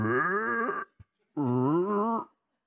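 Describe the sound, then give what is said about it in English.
A person imitates a cow's moo with two drawn-out, low, groaning vocal calls separated by a brief pause. “I grew up around cows. I heard them. They don't say moo. It's more like,”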